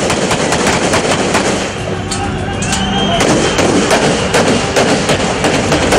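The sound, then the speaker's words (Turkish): Gunfire at night during a coup attempt near the Bosphorus Bridge: many loud, rapid cracks and bursts over a dense, constant roar of noise. “Gecenin sonlarına doğru silah sesleri arttı.”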